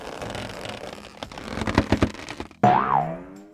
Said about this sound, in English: Wow, she can really bounce.